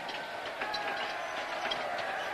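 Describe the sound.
A train pulling into a station gives a steady, fairly quiet rumbling hiss with faint rattling throughout, without voices.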